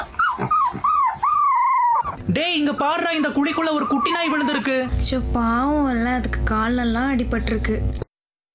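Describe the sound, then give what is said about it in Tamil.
A dog that has been crying since morning near a shop whines and whimpers. Its long, wavering, high-pitched cries come one after another, loud and nearly unbroken, with a few sharper yelps among them. “ஏங்கா இந்த நாய் காலையில இருந்து பாக்குறேன் அழுதுட்டே இருக்கு.”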